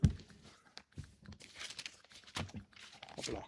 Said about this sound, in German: Moment, einmal blättern.